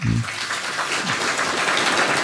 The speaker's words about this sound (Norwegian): Det var veldig vakkert. Vi må få en applaus for det.